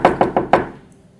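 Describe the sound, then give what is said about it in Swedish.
Four firm knocks on a door in quick succession, evenly spaced and loud, each ringing out briefly before the last one fades. “Gör en knack på dörren.”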